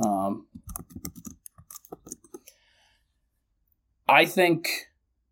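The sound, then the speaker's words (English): Rapid clicking of typing on a computer keyboard, many crisp keystrokes in an uneven burst of about two seconds, with a voice speaking briefly before and after. “Let me just type something out real quick.”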